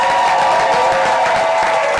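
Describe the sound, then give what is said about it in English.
A live studio audience applauds and cheers, a dense, steady wash of clapping and crowd noise that holds at an even level throughout. “We have a live studio audience. Give it up for yourselves.”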